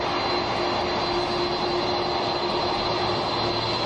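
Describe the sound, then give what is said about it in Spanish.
The US presidential jet taxis on the runway at Torrejón de Ardoz at night, giving a continuous, even jet-engine roar with a steady whine running through it and no voices. “Este es el sonido del Air Force One, el avión del presidente de Estados Unidos, deslizándose por la pista de Torrejón de Ardoz.”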